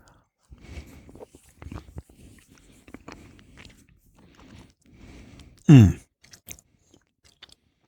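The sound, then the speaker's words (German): Soft chewing of raw chocolate taken with a sip of rum, many faint irregular crunching and smacking sounds with short pauses, then one brief louder burst. “Ich mache das mal so, ich lege die mal auf meine Zunge und tue die ein bisschen ankauen und dann bringe ich einen Schluck rum dazu.”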